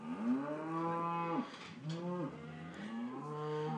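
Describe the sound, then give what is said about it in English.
An agitated herd of cattle moos loudly and almost without pause. Several long, low, drawn-out calls overlap and follow one another. “they have a bunch of cattle going crazy.”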